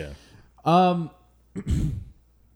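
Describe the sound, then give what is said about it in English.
Throat clearing, heard as a short voiced hum followed by a rougher, raspy burst, with quiet pauses between them. “caught something in my throat there a little bit.”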